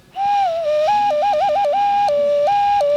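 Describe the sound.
An ocarina-like whistle, blown through a small hole, sounds a clear, loud tone that starts low and then flips between two pitches in quick trills and longer held notes.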